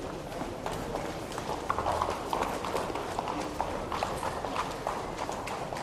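Hooves clip-clop from an arriving horse-drawn carriage, a steady run of fairly faint clops over a broad, noisy wash.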